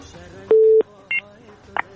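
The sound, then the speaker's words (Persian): Telephone tones as a caller's line connects: a loud steady beep lasting about a third of a second, then a short higher dual-tone burst, then a brief blip, over a faint background. “میریم به طرف تماس بعدی بشنیم کدام عزیز ما هست از کجا تماس گرفته.”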